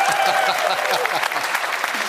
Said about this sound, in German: wenn ich sage, Dankeschön, Dankeschön, es reicht, dann macht ihr was? Dann klatscht ihr weiter,